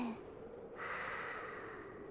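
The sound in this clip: A single deep breath, a soft drawn-in inhale followed by a longer airy exhale, heard faintly and alone as part of a slow breathing exercise.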